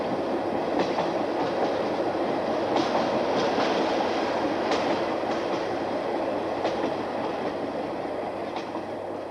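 A freight train rolls past with a steady, broad rumble and an irregular clickety-clack from its wheels. No voices are heard.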